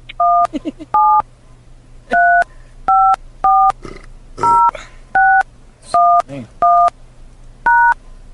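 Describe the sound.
A telephone keypad beeps out ten separate dual-tone presses while a phone number is entered for voicemail access. The short, clear tones come at uneven intervals, with faint vocal sounds between some presses.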